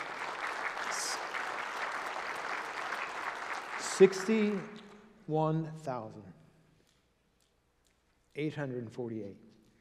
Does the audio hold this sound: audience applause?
yes